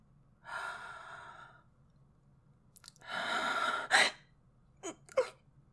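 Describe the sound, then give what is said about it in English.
A person takes a deep breath: a drawn-in inhale, a brief pause, then a fuller sighing exhale, followed by a few short, sharp breathy noises. “Yes, I'm relaxing, sir. Okay, I'll take a deep breath.”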